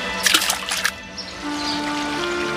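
Water splashing as a handful of mice is thrown off a bridge into a river: a burst of splashes and sprays during the first second, then a steady, softer trickle of flowing water.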